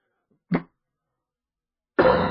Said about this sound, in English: Excuse me. Stuck some saliva in my windpipe. That'll do it.